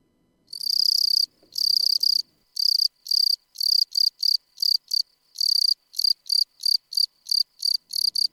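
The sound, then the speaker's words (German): A field cricket chirps alone in loud, high, buzzy pulses. Two longer trills come first, then many shorter chirps follow in quick, fairly regular succession. “das Zirpen gegen die Zubetonierung der Felder und Wiesen. Die Feldgrille ist Tier des Jahres 2014.”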